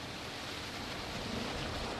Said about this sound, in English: Downstairs on the laboratory deck, a hatch is open to the cold ocean, where chunks of broken-off glacier ice float by and seagulls glide silently overhead.